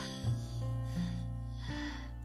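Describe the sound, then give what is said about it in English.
A deep breath drawn in during a guided morning affirmation exercise, a soft, airy inhale beneath calm, sustained music tones. “Now let's get started by taking a deep breath in.”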